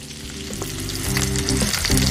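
Tofu skin sizzles loudly as it is stir-fried in a wok and tossed with a ladle, a dense, steady crackle that swells slightly toward the end, broken by a few sharper clanks and scrapes.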